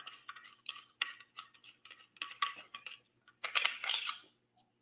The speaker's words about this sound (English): Got a knife with another little saw on it.